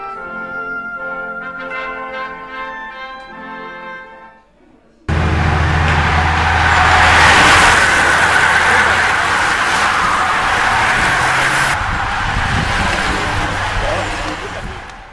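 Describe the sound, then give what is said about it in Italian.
Whoosh of racing bicycles passing on the road during the Giro d'Italia, a broad, steady rushing noise that swells and holds loudly for about ten seconds before easing off slightly. “quel fruscio che avete sentito è il passaggio del Giro d'Italia. Mi sono divertito a registrare il fruscio delle bici sulla strada.”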